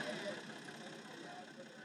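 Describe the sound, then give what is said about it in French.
A tractor engine runs in a field, giving a continuous, fairly quiet mid-pitched drone that holds steady with no clear changes. “On se croirait presque sur le tracteur. On était dans le champ.”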